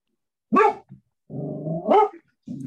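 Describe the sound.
A dog barks by itself: a few short, sharp barks with a longer, drawn-out growling vocal in the middle, loud and clear against silence.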